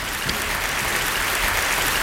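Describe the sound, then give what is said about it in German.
Steady, dense applause from an audience on a German show after a segment on colon irrigation and enemas, a continuous even patter of many hands with no clear breaks throughout. “Ja, ist ja gut, haben die Leute langsam mal von klatschen, bevor wir dann noch mehr in Detail kommen.”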